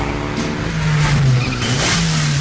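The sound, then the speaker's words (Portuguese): A Mitsubishi Lancer engine revs in a loud, continuous harmonic drone that climbs in pitch, dips briefly and climbs again, with no voices over it. “O espírito de nossa tecnologia vive em seu carro. O carro que triunfou em todo o mundo. Mitsubishi Lancer.”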